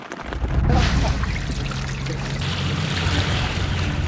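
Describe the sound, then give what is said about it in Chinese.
Rain falls on an archaeological dig site, a steady hiss and patter of water that swells in within the first second and carries on evenly, with a low rumble underneath. “10月25日夜，受长江以北大部分地区强降温天气影响，雨水开始光临考古工地。”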